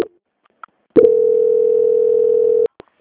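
A telephone call transfer tone plays during a bank phone call as a single steady, mid-pitched beep lasting under two seconds, framed by a few faint clicks before and after, with no voices.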